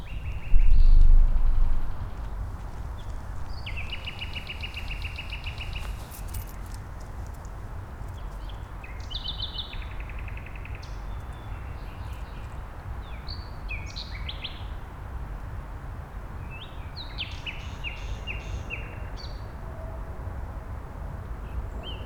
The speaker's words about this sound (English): That's the nightingale there.